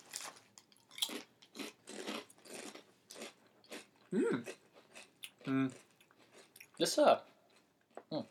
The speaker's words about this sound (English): let's eat it. All right. Eating the chips. Chip time.